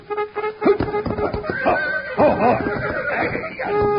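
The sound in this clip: A trumpet sounding the cavalry charge bugle call in place of taps: a bright run of short brassy notes framed by longer held tones at the start and finish.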